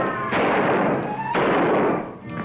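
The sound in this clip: Gunshots fired by a sheriff in a western scene: three sharp, loud bursts about a second apart, each trailing into a long noisy roar.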